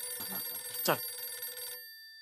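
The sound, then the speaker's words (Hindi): A telephone rings with a steady, bright electronic tone and a brief chirp partway through, fairly faint and with no talking over it. “बापू जी का phone, अभी क्या जवाब दूं मैं उनको?”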